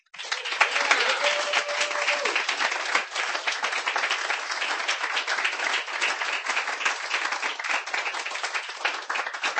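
An audience at a poetry reading applauds a finished poem: brisk, crisp clapping from many hands, loud and fairly even throughout, with individual claps audible in the mix.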